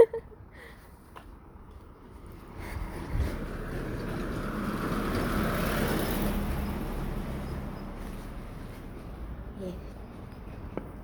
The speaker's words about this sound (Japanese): いいですね車がいっぱい、ちょっとこの通りもやめましょう